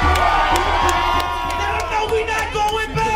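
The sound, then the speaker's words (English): Protest crowd outside a state house cheering, whooping and shouting in a loud, dense, continuous roar, with sharp bursts of individual yells rising out of the mass of voices throughout. “Protesters erupted outside the state house.”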